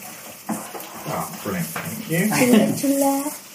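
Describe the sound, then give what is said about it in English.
Red onion sizzles as it fries in a pan and is stirred, a steady hissing crackle with soft scrapes and light clinks, growing a little louder toward the end with a voice briefly audible over it. “I like a bit of red onion. Oh, yeah. And look at that. I'm going to stir.”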